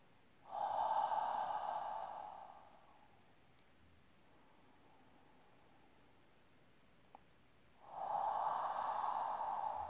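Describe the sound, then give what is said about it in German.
Two long, breathy exhalations into hands cupped before the nose: a soft, hissing rush lasting about two seconds, then a quiet pause, then a second exhale starting near the end. No talking. “Dann halte die Hände vor deine Nase und atme in die Hände aus und rieche deinen Atem, aktiviere den Geruchssinn.”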